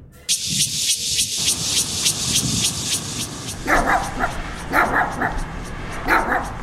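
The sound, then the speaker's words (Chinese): A dog barks repeatedly in the middle of the night: sharp, loud barks at a fairly regular pace over a steady high hiss. “三更半夜在那边乱叫，我是都不用睡啊，活该被打，活该被打。 哎呦，你这是要把狗打死哦？”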